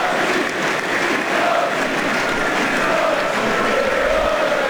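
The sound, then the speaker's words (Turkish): Football crowd filling a partly empty stadium with a steady, unbroken roar and murmur of many voices, with faint chant-like tones rising through the noise. “Yer yer boşluklar var tribünlerde ama geneli yine hatırı sayılır bir seyirci var Termopuan Arena'da, tribünlerde.”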